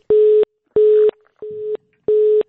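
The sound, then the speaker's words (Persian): A telephone line tone after a dropped call: four evenly spaced beeps at one steady mid pitch, each lasting about a third of a second. The third beep is slightly quieter than the others. “بله خب تماس ما با اونا قطع شد.”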